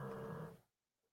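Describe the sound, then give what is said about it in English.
A single rough, low snore from someone asleep, lasting well under a second before it cuts off into near silence. “Yeah, you hear that snoring, right?”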